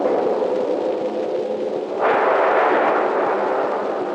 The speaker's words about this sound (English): A direct hit. She's blown to pieces. Fire! Where's the man that fired that shot?